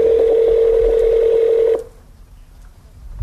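A telephone keypad tone sounds as a number is dialed: one steady, clear electronic beep holds for nearly two seconds, then cuts off abruptly, leaving near silence with a faint low rumble.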